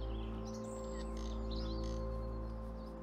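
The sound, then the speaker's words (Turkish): Birds chirping in a nature scene: faint scattered high twitters and short chirps drift over a steady, low sustained drone. “Kuş cıvıltılarını”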